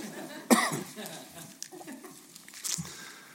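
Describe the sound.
One sharp cough from a person breaks out, loud against otherwise faint, indistinct background sounds that follow quietly.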